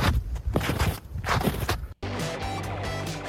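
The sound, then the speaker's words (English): Footsteps of someone walking in snow make several crunchy, evenly paced steps for about two seconds, then music cuts in abruptly and continues. “That is, in fact, the sound of somebody walking in snow.”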